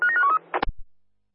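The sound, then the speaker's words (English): Touch-tone telephone dialing as a dispatcher places a call: a short run of beeping keypad tones at shifting pitches, then a sharp click and a low thump before the line goes quiet. “Just stand by, dialing up.”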